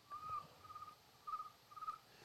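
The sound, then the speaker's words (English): A human voice imitates a chirping cricket in a few bursts of short, high, whistly chirps, with a small pause between each group, over a faint low background. “He's like, dude, did you guys hear that cricket? It was perfect timing.”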